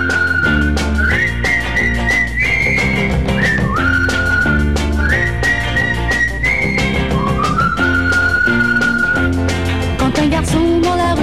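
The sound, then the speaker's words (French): A bright whistled melody rides over a full pop band, the tune used as a signal between friends in a 1963 French pop song; the whistle moves in stepped, sustained notes high above the accompaniment throughout, with no talking. “Un de ses copains, on lui sifflait un petit air qu'il connaît plus ou moins bien.”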